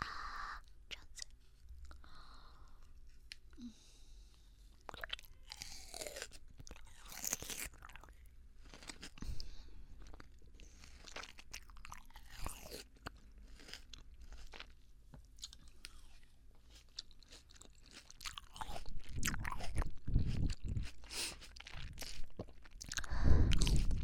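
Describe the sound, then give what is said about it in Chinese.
Crunchy biting and chewing of freshly cut, cold fruit, a quiet series of many irregular crisp crunches and wet mastication sounds that grow louder and denser toward the end. “早上就切水果啊，会不会太凉了一点？好嘛，尝一尝。”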